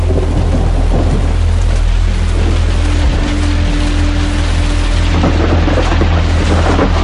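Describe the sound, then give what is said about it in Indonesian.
Heavy rain pours with thunder, a loud, steady hiss of downpour over deep, rolling low rumbles that continue through the whole stretch. “Untuk mencari angkot, kami harus melewati hujan sehingga kami hujan-hujanan.”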